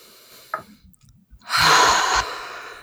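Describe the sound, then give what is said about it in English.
A single deep breath, a long airy rush of air that swells and then cuts off, fairly loud and alone with no talking. “Deep breath.”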